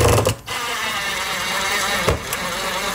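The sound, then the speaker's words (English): Steady mechanical whirring as a drill drives a screw slowly into a wall anchor set in drywall, with a brief break near the start and a short burst near the end. “And then we're gonna take the coordinated screw that comes with the set. Comes with the set. Drive that part in nice and slow.”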